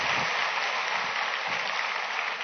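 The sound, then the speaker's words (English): A church audience applauds as a clap offering to God during a worship service, making a steady, dense wash of many hands clapping at an even level throughout. “Let's give God another clap offering.”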